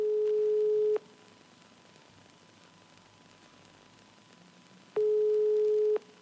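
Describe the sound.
Telephone ringback tone on an unanswered call: a steady mid-pitched tone sounds for about one second, then quiet hiss for about four seconds, then a second one-second tone.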